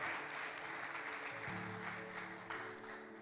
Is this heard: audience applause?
yes

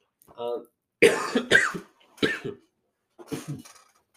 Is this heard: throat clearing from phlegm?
yes

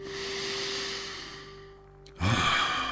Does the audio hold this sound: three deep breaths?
yes

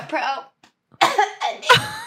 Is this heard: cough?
yes

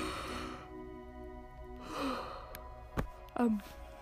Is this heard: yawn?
yes

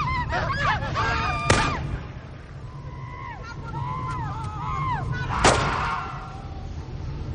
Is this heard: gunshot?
yes

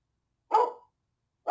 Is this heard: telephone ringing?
no

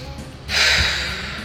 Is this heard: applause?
no

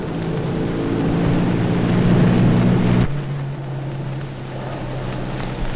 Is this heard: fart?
no

